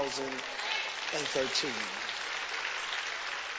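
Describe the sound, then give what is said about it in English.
A church audience applauds at the close of the last Sunday service of the year with steady, dense clapping throughout, and voices are heard briefly near the start. “Let me thank all 23 of y'all for that rousing applause and celebration.”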